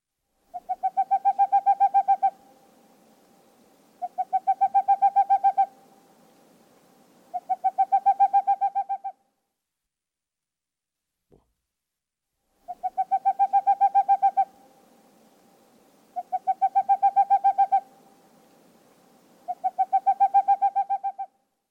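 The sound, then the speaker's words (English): A Boreal Owl calls in six bursts of rapid, evenly spaced hoots. Each trill runs about two seconds at a steady mid pitch and stands out clearly against silence. “Boreal Owl.”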